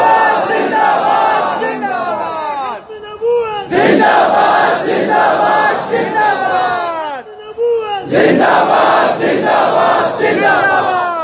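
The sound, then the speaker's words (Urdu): A crowd at a rally chanting a religious slogan, three loud surges of massed shouting voices separated by short pauses, each a roaring wave of many people calling together. “تسی اج نعرہ کوئی نہیں لایا, جڑے پیچھے کھڑے ہو تسی زور لاؤ سارے پچھو”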